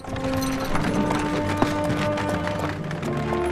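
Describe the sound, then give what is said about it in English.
Horses are ridden into a town, followed by two mounted soldiers. Many hoofbeats blend into a steady, continuous clatter over a low hum. “They ride into the town, and the two mounted soldiers follow them in.”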